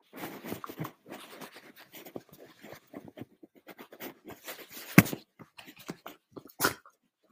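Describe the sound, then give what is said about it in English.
A dog sneezes: two sharp, explosive bursts stand out near the end, amid many quieter clicks, snuffles and rustles. “That was her sneezing, if you heard it.”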